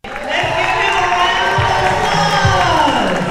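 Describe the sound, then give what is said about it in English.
Middle school students cheering each other on inside J.H. Phillips Academy in downtown Birmingham. Loud, continuous massed young voices shout and whoop, with sustained high yells carrying over the crowd noise. “Middle school students cheered each other on inside J.H. Phillips Academy in downtown Birmingham.”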